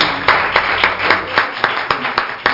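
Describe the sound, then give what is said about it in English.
An audience claps hands in praise during a church service, sharp claps falling in a steady, evenly spaced rhythm, loud and clear with a softer bed of scattered clapping behind. “Let's give the Lord another hand clap of praise.”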